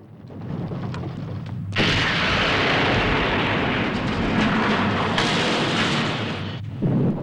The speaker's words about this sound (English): As explosions rip the heart out of the solar energy station, they climb on board the junk.